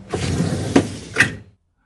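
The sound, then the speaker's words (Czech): A door in a train carriage being shut: a short rumbling slide followed by two distinct knocks, the second one marking the close, then silence. “I dveře za sebou zavřela.”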